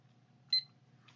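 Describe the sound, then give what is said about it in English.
Short electronic timer beep as a button is pressed, a single bright, high-pitched chirp heard once, fairly quiet over a low steady hum, with no talking. “okay, timer's on.”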